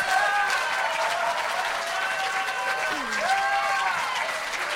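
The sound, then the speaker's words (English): Congregation applauding and shouting praise at a bilingual English and Spanish worship service, with a steady, dense wash of clapping and cheering voices that runs unbroken from start to finish. “Can we just stand and give Jesus a shout? Por favor, levántense, den aplausos y gritos a Dios.”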